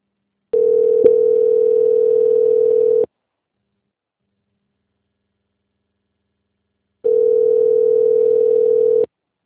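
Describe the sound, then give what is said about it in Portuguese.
Telephone line tone while a call is being transferred: two long, steady mid-pitched tones separated by a stretch of silence, with no voices. “Peço que aguarde em linha que eu vou lhe transferir para o contato para o controle de qualidade que dará continuidade à sua contratação.”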